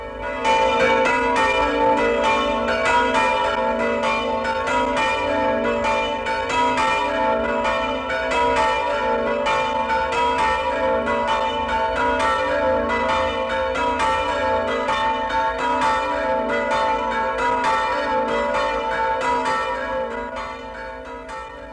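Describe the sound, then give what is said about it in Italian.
Church bells in Friuli ringing a joyful New Year peal, a dense, steady wash of overlapping metallic strokes and sustained tones. The ringing runs unbroken for about twenty seconds before easing slightly at the end. “Affidiamo al suono gaio e maestoso di queste campane il compito di porgere a nome di tutto il Friuli, a voi che siete l'orgoglio e la nobiltà di nostra gente, l'augurio più caldo ed affettuoso di buon anno.”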